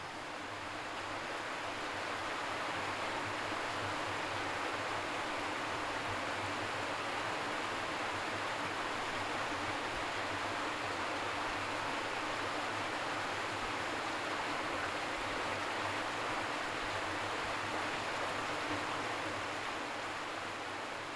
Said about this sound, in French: Nous voilà près de l'eau du lignon. C'est notre nouveau point d'observation.